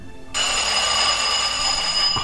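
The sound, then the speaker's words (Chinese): A telephone ringing, with a steady, bright electronic ring that starts after a short pause and holds at an even, loud level to the end. “去接电话吧。”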